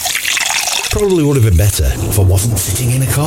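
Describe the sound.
A drink poured into a glass, with a brief liquid trickle and splash at the start, followed by a man speaking over a steady background.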